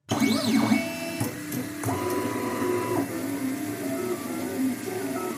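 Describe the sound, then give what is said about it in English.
A 3D printer whirs as it prints handheld plastic microscopes. Warbling, sweeping stepper-motor tones sit over a steady mechanical hum, with a few brief clicks and shifts in the motor pitch. “Now that's the sound of a 3D printer, which Richard is using to make handheld plastic microscopes”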